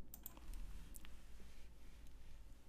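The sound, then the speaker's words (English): Faint typing on a computer keyboard, a few scattered light clicks and taps over a quiet background with no voices. “I'm going to just type in Mack and hope that Khalil pops up.”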